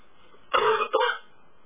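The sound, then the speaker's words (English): A double cough during a committee meeting: two quick harsh bursts in close succession, fairly loud over a faint steady background, with no talk. “You're going to find me coughing from time to time, so forgive me for that.”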